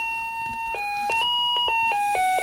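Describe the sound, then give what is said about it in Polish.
Electronic doorbell chime from a home intercom setup, playing a bright melody of several electronic notes that step up and down in pitch, loud and steady with no voices. “Potem mamy taki świeci. Dzwonek.”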